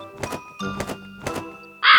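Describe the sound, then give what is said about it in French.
A crow perched on a high tree branch caws three times, harsh raspy calls evenly spaced about half a second apart over a soft sustained musical tone, followed by a brief bright burst at the end. “le vilain corbeau déroba de nouveau un magnifique morceau de fromage et vint se poser sur la plus haute branche d'un arbre.”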